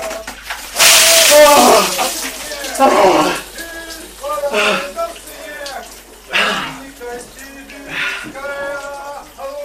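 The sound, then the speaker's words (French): Water pours and splashes from an ice bucket of freezing water hung about two metres up, with loud gushing bursts under constant voices talking and calling out. “c'est le ice bucket suspendu à 2 mètres qui se remplit d'eau gelée et là il n'y a plus qu'à tirer sur la ficelle”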